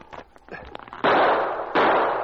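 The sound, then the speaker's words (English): Two loud rifle shots ring out in a dramatized woodland firefight. Each is a sharp crack with a long, noisy tail, coming after a brief stretch of talk. “The men among the trees showed themselves for the barest second, and they fired, and the sergeant missed his target several times. Then one of his shots hit the man at the left.”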